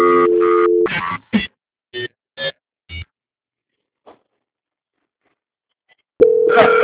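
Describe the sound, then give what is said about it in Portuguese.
An unanswered telephone call produces line tones: a long steady tone, then several short beeps, a long stretch of near silence, and the tone returning loudly at the end. “Ah, é porque eu estou na ligação, só que o São Paulo não está atendendo.”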